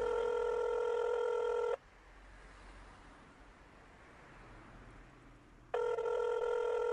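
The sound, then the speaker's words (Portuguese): Telephone ringback tone heard while placing a call: a loud, steady electronic ring burst, a long quiet pause, then a second ring burst starting near the end. “Bom, eu ligo pra ele. Ligo pro Douglas.”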